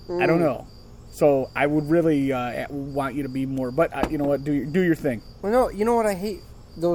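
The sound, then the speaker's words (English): Crickets chirping outdoors at night, a steady high trill running faintly beneath continuous conversation. “So that's why you hear the crickets outside.”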